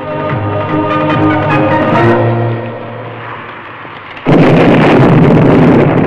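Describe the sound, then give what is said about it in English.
Explosion of a fuse-lit charge blasting away a wooden ranch fence in a deluge of dust and sparks: a fading tonal passage gives way to a sudden loud blast that sustains as a roaring, crackling rumble to the end. “The fence is blasted away in a deluge of dust and sparks.”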